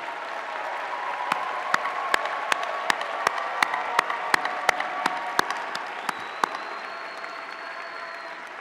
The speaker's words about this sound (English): Candidates, would you please rise and applaud? Please turn to your family and friends and applaud them for all their support.